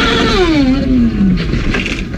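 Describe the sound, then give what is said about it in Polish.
A column of motorcycles rides legally past on a road. Loud, continuous engine roar fills the stretch, with one clear engine note sliding steadily downward in pitch as the bikes go by. “To nagranie pokazuje legalnie jadącą kolumnę motocykli.”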